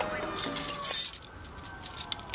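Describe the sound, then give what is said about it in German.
Keys on a bunch jangle while a rusty iron gate in a backyard wall is unlocked, giving bright metallic clinks and rattles, busiest in the first second and then scattered. “In der Mauer des Hinterhofs war ein rostiges Eisentor. Marsch! Der Anführer der Gang schloss es mit einem Schlüssel auf, den er an einem Bund bei sich trug.”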